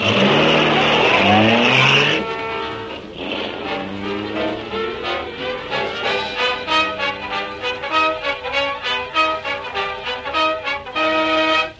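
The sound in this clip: A car driving off fast, its engine roaring loudly as the note climbs in several rising surges, continuous and heard alone without voices.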